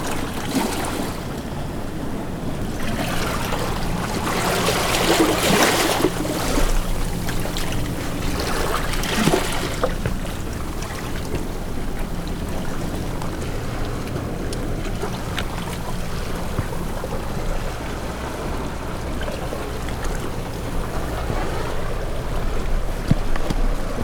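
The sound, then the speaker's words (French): Sea washing against a rocky shore where sea urchins grow, a steady broad wash of water and wind with a low, even hum beneath it. No voices, and the level stays fairly constant throughout. “On est comme ça, calé entre les rochers. Et l'horizon, c'est la mer.”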